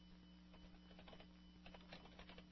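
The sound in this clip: Typing on a computer keyboard: many quick, faint key clicks in an uneven patter over a steady low hum.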